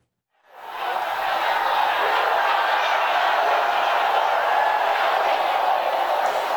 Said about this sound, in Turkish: Defalarca yuhalandı. ABD Başkanı Donald Trump'ın Texas eyaletinin San Antonio kentinde düzenlediği mitingdeki konuşması protesto edildi.